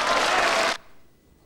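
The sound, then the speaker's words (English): Peers in the House of Lords cheering and clapping in a single dense burst of crowd noise that stops abruptly partway through, leaving near silence. “The peers in the House of Lords cheer Lord Graves.”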